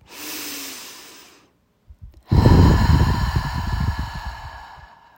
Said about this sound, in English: Use your breath as a tool to stay focused, calm, and present. Let's all take a deep breath.